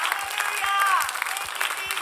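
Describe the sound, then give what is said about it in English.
Church audience clapping in praise during a morning service, with steady applause marked by a regular low thump and a voice briefly rising above it. “Let's give God another hand clap of praise as we're seated this morning.”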